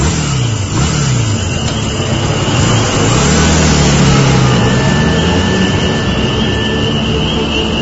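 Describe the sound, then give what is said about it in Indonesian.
A motorcycle accelerates away, its engine a loud, continuous drone whose pitch swings up and down as the rider revs through the throttle, with no voices. “Aku pun berpamitan pada sopir travel itu dan langsung menancap gas motorku.”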